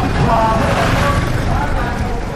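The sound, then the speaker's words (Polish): Road traffic in congested Kampala: a steady, loud rumble of engines and road noise runs throughout without a break. “Jedziemy z Kampali do Matugi z ojcem Wojciechem Ulmanem. Ruch, korki. Kierowcy zdają się łamać nie tylko przepisy drogowe, ale i zasady fizyki.”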